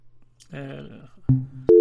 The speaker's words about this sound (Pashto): اړیکه قطع شو